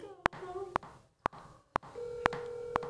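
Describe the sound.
A telephone call rings out, with six sharp clicks at a regular half-second pace and a steady mid-pitched tone sounding at the start and again near the end. Faint voices are heard underneath.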